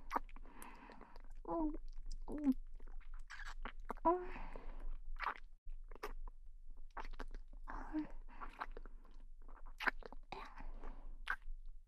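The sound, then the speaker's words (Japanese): Soft, wet mouth sounds of eating and chewing with the tongue. Quiet clicks, smacks and licks repeat irregularly at low volume, with breathy pauses between. “それじゃあ、この長いベロで食べてあげますから。”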